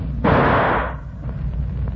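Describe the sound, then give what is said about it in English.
A single gunshot, with the bullet striking a tree, heard as one loud, broad blast that stays noisy for under a second before dying into a low background rumble. No voices. “the bullet hit a tree 10 feet away”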